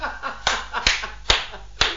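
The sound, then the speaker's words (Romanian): Hands clapping slowly in a sparse, single-person applause: four sharp, evenly spaced claps about half a second apart, standing out clearly over a low steady hum with no talk. “Aplauze la scenă deschisă, tată, ești o minună, tată.”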